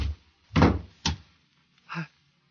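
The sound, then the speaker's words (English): Gunshots fired during a tense struggle over a gun: two sharp, muffled cracks roughly half a second apart, followed after a pause by a shorter, fainter burst. “I shot her.”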